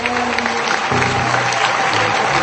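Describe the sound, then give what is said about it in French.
A church audience claps in worship for the Holy Spirit's visit, a loud, continuous mass of clapping with voices audible beneath it throughout. “Let us clap to the Holy Spirit for visiting. Acclamons le Seigneur d'avoir visité.”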